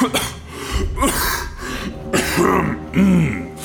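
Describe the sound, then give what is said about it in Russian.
A man's coughing and throat clearing, voiced by a performer imitating the sound, in several rough, raspy bursts of varying strength. “Усатый тунух посмотрел на меня с усмешкой и снова закашлялся.”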